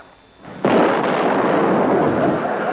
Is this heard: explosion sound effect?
yes